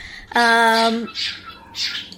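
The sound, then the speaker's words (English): A pet bird lets out one harsh, harmonic squawk lasting under a second. Two shorter hissy, breathy bursts follow it. “So in an effort to quiet the bird, we now have the bird with us.”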